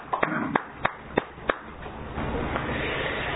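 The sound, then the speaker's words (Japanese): A handful of sharp hand claps greet a 52nd birthday, then give way to a steady, soft wash of noise, all fairly faint. “盛大な拍手でお願い”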